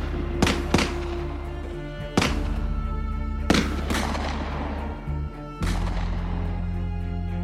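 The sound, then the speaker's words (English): Gunfire as several deputies start shooting: five sharp, loud reports at irregular intervals, each trailing off in a decaying tail, over a steady low hum. “And at that point, all the other Baldwin deputies start shooting.”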